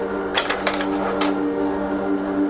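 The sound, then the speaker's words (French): Mechanical sound effect of a time machine: a few sharp metallic clicks and ratcheting ticks over a steady low electronic hum. “Grâce à cette machine, on ne vole pas dans l'espace. On remonte le temps. D'une pression, on recule.”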